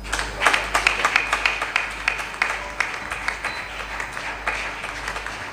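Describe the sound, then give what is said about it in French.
A church audience claps as the president comes forward, with steady, rhythmic clapping at a moderate level and regular accented beats throughout. “Pendant qu'il avance, nous acclamons.”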